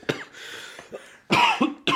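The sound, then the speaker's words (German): Coughing after choking on something: a few harsh, loud coughing bursts that follow softer throat sounds, with the coughs coming in quick, forceful clusters. “habe ich mich verschluckt gerade”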